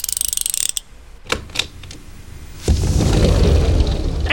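Safe mechanism opening after a code is entered: a few sharp mechanical clicks, then a loud, steady grinding rush of moving parts that continues to the end.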